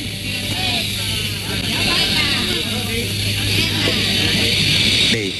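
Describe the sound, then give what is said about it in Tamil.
A vehicle's engine runs in a steady, loud rumble with a low hum as it prepares to leave, while people talk over it. “ஏறு ஏறு, வண்டி கிளம்ப போகுது, ஏறு.”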